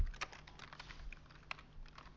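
Light typing on a computer keyboard during a Java programming session: a scattering of soft, irregular keystroke clicks, faint over a low steady hum.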